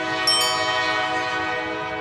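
A train horn sounds in New Orleans as one loud, steady, sustained blare with rich harmonics that holds unchanged for the whole two seconds, with no talk over it.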